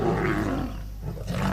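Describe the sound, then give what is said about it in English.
A lion roars in Uganda, a deep, rough, sustained roar that fills the whole clip, easing briefly in the middle before swelling loud again. “That sound is becoming harder to hear in Uganda. The country now has just 291 lions”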